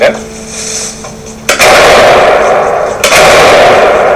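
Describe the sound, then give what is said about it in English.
Gunfire from a semi-automatic Glock 17 pistol fitted with a 50-round drum magazine: two sudden, loud reports, each followed by a sustained, harsh ringing crackle, after a quieter opening stretch. “All right, so we got the Glock 17. This is regular semi-automatic Glock. Absolutely. We have a 50-round drum. We're not going to shoot all 50. We're ready to go.”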